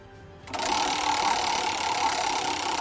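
A prize wheel is given a heavy spin, breaking into a loud, rapid mechanical clatter after a short quiet start, the ticks blurring into a steady whirring rattle that keeps going.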